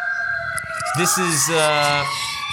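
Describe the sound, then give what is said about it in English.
Sirens wailing in the background behind a talking voice, a steady high tone running under the speech throughout. “those are sirens in the background.”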